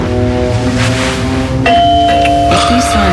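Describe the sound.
A doorbell rings as a two-note ding-dong chime. Its bright, clear bell tones strike partway through and sustain and overlap over a steady background hiss.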